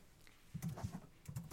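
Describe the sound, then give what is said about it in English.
Faint, quick keyboard typing for a web search: two short bursts of clustered key clicks separated by a brief pause. “That's the sound of me Googling.”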